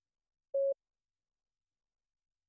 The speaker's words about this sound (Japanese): 今まで聞こえていた電子音、こちらの音の位置が変わります。